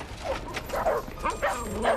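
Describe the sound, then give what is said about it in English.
Dogs bark and yip as they chase after a cat: several short, excited, fairly faint barks and yelps come in uneven bursts across about two seconds. “Zach runs smiling with the dogs as they chase after a cat”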